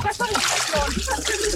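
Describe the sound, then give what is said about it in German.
Water splashes and sloshes as someone slides down into a 28-degree swimming pool, a short burst of splashing with voices speaking over it. “Ich rutsche runter ins 28 Grad warme Becken.”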